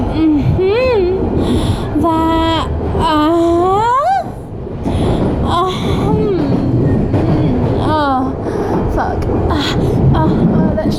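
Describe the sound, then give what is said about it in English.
Steady rumble inside an empty, moving train carriage runs under a person who talks almost without a break. “fell asleep on the train. What can I say? It's been a long day. But that means that I have an empty carriage.”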